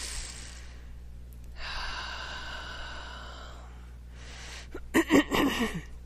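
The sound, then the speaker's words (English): A long, slow deep breath during a guided breathing exercise, soft and airy, then a shorter breath and a few sharper breathy sounds near the end. “Nice deep breath here, please.”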